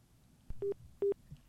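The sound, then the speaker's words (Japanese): Telephone tones from a phone call being placed to someone in Okinawa: a short click followed by two steady, mid-pitched electronic tone bursts separated by a brief gap. “太郎さん、ヤンバル太郎さんに電話します。”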